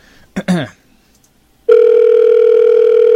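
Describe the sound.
A telephone ringing tone after a toll-free 800 number is dialed, a steady, loud electronic tone that starts abruptly halfway through and continues to the end, after a short voice and a stretch of near silence.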